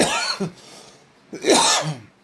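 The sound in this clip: Coughing from smoke caught in the throat: two rough, harsh bursts separated by a short pause, loud and alone with no talk.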